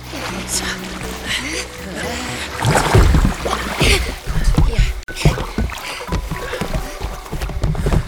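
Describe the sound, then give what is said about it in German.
Rowboat rocking back and forth as it comes in to land at a lakeside jetty, with irregular water sloshing, splashes and hollow knocks that continue throughout. “Da ist der Steg. Und da liegt ein Ruderboot. Ja. Es schaukelt hin und her. Los, wir legen an.”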